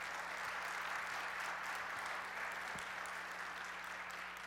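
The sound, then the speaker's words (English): Faint, steady applause from an audience welcoming a couple celebrating 45 years of marriage. The clapping forms a continuous, even wash of many hands with no break. “So welcome them. Give them a hand.”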